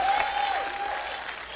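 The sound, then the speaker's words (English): A church audience on its feet applauds to welcome its pastor, producing dense, steady clapping from many hands that holds at an even level throughout. “Come on, get up on your feet. Put your hands together. Welcome Pastor Paul Grodell.”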